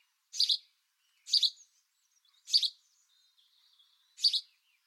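Sparrows chirp outside a window: four short, bright, high chirps come at roughly even intervals, fairly faint against silence, with a very soft trill between the last two.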